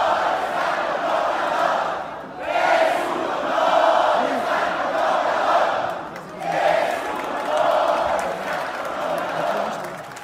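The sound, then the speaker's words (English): A crowd chants at the swearing-in of Mexico's lower house. The many voices swell and dip in a steady rhythm, pausing briefly twice between loud phrases. “That's the sound of chanting at the swearing-in of the lower house last week.”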